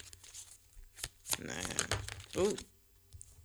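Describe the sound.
Papery rustling and sliding of cards pulled from a deck during a card reading: a few brisk crinkling, tearing-like bursts, moderately quiet, with a short vocal sound near the end.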